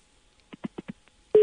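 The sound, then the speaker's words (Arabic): A telephone busy tone follows a dropped phone-in call: four short, evenly spaced beeps, then a loud steady tone that starts abruptly and holds. “ربما الحركه اللي كدير في يديك في التليفون انقطعت للاسف التواصل”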